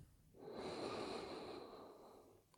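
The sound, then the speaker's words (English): A single long, deep breath taken during a guided gratitude meditation. The airy, hissing flow of breath swells smoothly, holds steady for about two seconds and then tapers off, with no voice over it. “Deep breath in”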